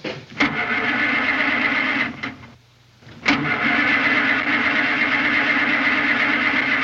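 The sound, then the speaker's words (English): A car engine cranks repeatedly without catching, flooded from too much accelerator. The loud, steady churning breaks off briefly midway, then resumes at full strength. “You might be mashing down too hard on your acceleration, flooding her out.”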